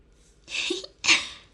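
Two sharp, breathy sniffs from someone crying, close together and fairly faint, each a short rush of air through the nose.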